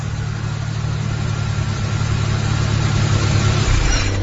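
Car engine running steadily as the vehicle arrives, a continuous low, mid-pitched hum throughout, with a brief change in the rumble near the end.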